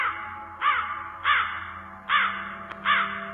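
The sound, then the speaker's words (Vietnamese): Black crows in tall trees around a cemetery give four harsh, loud caws at roughly even intervals, each a ragged rising-and-falling call standing out alone over a low background. “vài con quạ đen bất thình lình vỗ cánh phành phạch rồi bay vút lên, kêu lên từng tiếng thê thiết giận người.”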